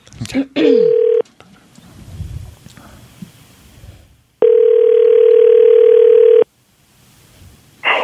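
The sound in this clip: A telephone dial tone sounds as a loud, steady hum in two stretches, one short and one about two seconds long. Faint clicks and soft noise sit between them as the number is dialed, and another tone begins at the very end.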